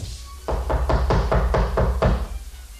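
Knocking on a door: a steady series of many evenly spaced, firm raps with a dull, hollow thump, heard alone with no voices.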